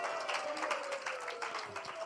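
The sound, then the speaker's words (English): Congregation clapping during a church sermon: a dense, continuous patter of many hands over a sustained voice-like tone. “Clap for the Lord Jesus.”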